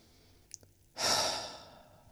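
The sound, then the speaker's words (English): A deep, slow exhale during a relaxation exercise, a soft breathy rush that swells and then gradually fades, preceded by a faint, brief intake of breath. “Take a few deep breaths in and out.”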